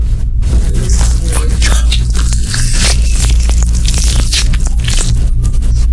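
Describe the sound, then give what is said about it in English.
An orange being opened by hand gives a continuous wet squishing and tearing of peel and pulp, with a steady low hum beneath. “We finally got to try them. We're currently opening an orange.”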